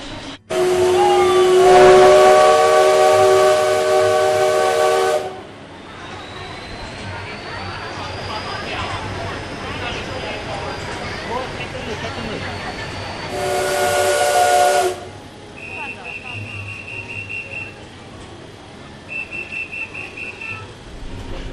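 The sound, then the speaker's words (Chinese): A passenger train pulled by the CT273 steam locomotive stands waiting to depart in Hualien, Taiwan. Two loud, steady steam whistle blasts sound, the first long and the second shorter, over a continuous steam hiss. Two brief high tones come near the end. “现在我们已经上车了，准备等一下10:40要准备发车。”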